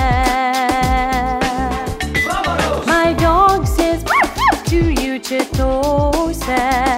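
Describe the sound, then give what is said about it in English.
A dog howls and yips during a lively birthday song, with a few rising and falling cries riding over steady, loud music. “My dog says, "Awoo!"”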